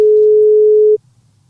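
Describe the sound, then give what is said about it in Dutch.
A telephone call rings out with one steady, mid-pitched electronic tone. It holds for about a second and then cuts off abruptly into near silence. “Maar ja, we hebben hem gebeld.”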